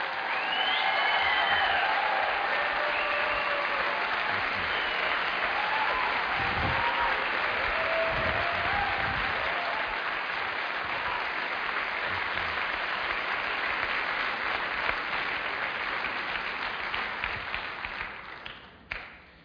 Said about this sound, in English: Would you please put your hands together and welcome Dr. Jerry Taylor.